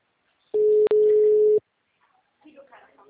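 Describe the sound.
A telephone ringback tone sounds while the caller waits for someone to answer: one long, steady, mid-pitched tone with a momentary break, followed by faint voices.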